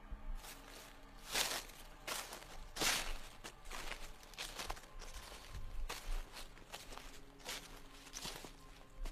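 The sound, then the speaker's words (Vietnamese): Rustling footsteps move through tall elephant grass as a few faint, uneven crunching steps with soft brushing of stalks, quiet throughout. “Lại có tiếng bước chân sột soạt ở trong bụi cỏ bên kia.”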